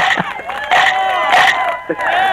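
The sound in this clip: A live studio audience cheers on a morning television show, with loud overlapping shouts and whoops rising in bursts.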